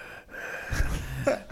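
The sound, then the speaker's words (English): A voice imitates Thor from Thor: Ragnarok panting out of breath, giving a few short, breathy gasps and huffs with no words. “Thor Ragnarok, every time Thor shows up, he's out of breath for some reason.”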